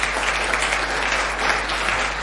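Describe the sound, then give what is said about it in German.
An audience applauds the last drummer at an association event. The clapping is thick and continuous, with a steady, fairly loud sheet of claps throughout. “für den letzten Trommler hätte er eigentlich jetzt nochmal einen Beifall verdient”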